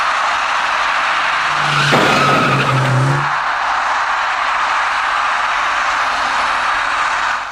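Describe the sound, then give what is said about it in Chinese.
Tires screech as a dark small passenger car skids while braking at an intersection toward an electric bicycle. A loud squeal of about a second and a half rises over steady road noise. “而一位驾车由南向北而来的深色小客司机因为采取措施不及，与其发生严重相撞”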